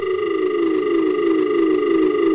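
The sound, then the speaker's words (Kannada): Telephone tone after a call is cut off: a continuous buzzing tone rich in harmonics, steady in loudness throughout, with its pitch drifting slightly lower. “ಕರೆ cut ಆಗಿದೆ.”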